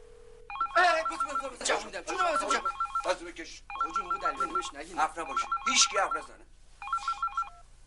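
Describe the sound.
A telephone ringtone sounds in repeated electronic bursts of stacked tones while people talk over and between the rings.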